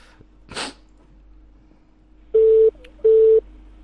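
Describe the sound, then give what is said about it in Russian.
Strange telephone tones on a Skype call to a phone number: two steady mid-pitched beeps, each about a third of a second long with a short gap between them. An earlier brief snort-like burst sounds over a faint hum. “Че, блядь, такое? Че за странные гудки?”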